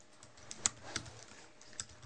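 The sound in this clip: Sparse keystrokes on a computer keyboard as a council resolution is typed. A few soft, irregular clicks stand out faintly against a quiet background.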